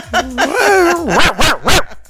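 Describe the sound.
A dog gives a drawn-out, wavering whine that slides up and down in pitch, followed by a few short, sharp yelps. The sounds are fairly loud and heard on their own.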